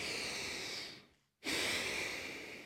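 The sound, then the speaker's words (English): A deep breath during a yoga session: two long, airy breaths, in and out, separated by a brief silent pause. Both are moderately loud and heard alone. “Nice deep breath.”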